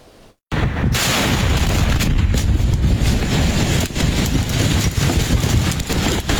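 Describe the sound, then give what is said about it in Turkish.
Explosions at a military facility storing fireworks material roll into a dense, continuous roar after a brief quiet start, with a few sharper bangs breaking through the rumble. “Patlama sesleri ard arda yükseldi.”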